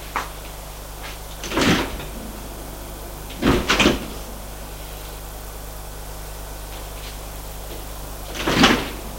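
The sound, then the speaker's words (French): The entrance door of an apartment building being opened, heard as a few short clunks and rattles, one a quick double knock, spread over a steady background hiss. “Et elle ouvre la porte de son allée.”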